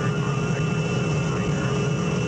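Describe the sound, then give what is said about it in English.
Steady, unbroken engine drone from an aircraft about to land: a constant broad roar with faint sustained tones running through it, and no voices. “We will soon be landing at Westworld, the ultimate resort.”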